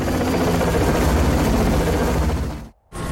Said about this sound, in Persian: موقعیت سقوط، خودگرد فرود میارمش.